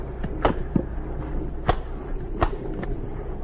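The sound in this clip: Bomb cases are shut with a few sharp, irregularly spaced clicks and knocks over a steady low hum.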